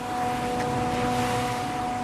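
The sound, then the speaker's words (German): Trucks drive and excavators work during the cleanup of mud and rubble after a destructive mudslide. A steady, loud engine rumble carries a constant low tonal hum, with no voices. “Noch fahren die Lkw, noch arbeiten die Bagger, noch türmen sich Tonnen an Steinen und Geröll.”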